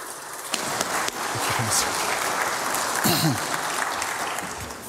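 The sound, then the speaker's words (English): A church audience at Highland Hills gives a warm round of applause to a welcomed guest speaker. The dense, steady clapping continues throughout, with faint voices mixed in. “let's give him a warm welcome from Highland Hills”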